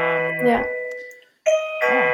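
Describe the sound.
A doorbell rings with sustained, bright electronic chime tones in two ringing phrases separated by a brief silence, loud and clear.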